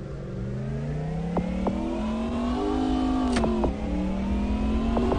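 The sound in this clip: Race car in a racing video game accelerating out of the pits, its engine whining steadily higher, dropping once at a gear change, then climbing again under a constant mechanical hum.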